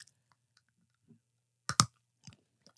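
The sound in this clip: Biting into a snack bar gives a single crisp, sharp snap-crunch, followed by a few soft chewing clicks, all quiet and otherwise near-silent.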